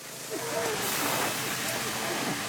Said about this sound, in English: At Gorilla Property Services, we make squeaky clean window washing, pressure washing, dryer vent cleaning, gutter and roof cleaning, and soft washing sounds like this.